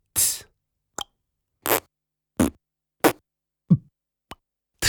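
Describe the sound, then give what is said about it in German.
A voice imitates drums with beatboxed mouth percussion: a steady series of short, punchy kick- and snare-like hits, evenly spaced with silence between them and varying slightly in weight and brightness. “Gib mir mal ein paar Drum-Sounds, bitte.”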